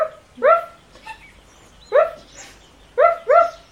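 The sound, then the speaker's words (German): A small black dog barks in several sharp, high yaps, with two quick barks close together at the end and faint whimpers between them. The barks are loud and clear, with no other sound. “Nun ging der Zauberer zu dem Haus, verwandelte das Mädchen in einen kleinen schwarzen Hund.”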